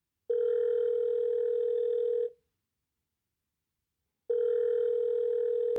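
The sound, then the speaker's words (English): A telephone tone plays while a call is being dialled. It comes as two long, steady, mid-pitched bursts, clear and alone, separated by a silent gap. “So without further ado, let's dial in Jonathan.”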